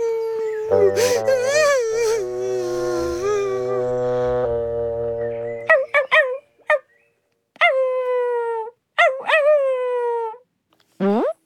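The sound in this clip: A crying puppy lets out one long, wavering howl, then a string of short, high whimpers and yelps separated by brief pauses, loud and alone.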